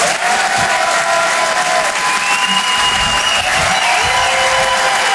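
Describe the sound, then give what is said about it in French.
Audience applause and cheering at a live comedy show, a thick, even wall of clapping with crowd noise and thin whistles, loud and unbroken from start to finish. “Encouragez, faites un maximum de bruit, s'il vous plaît, pour Romain Barreda.”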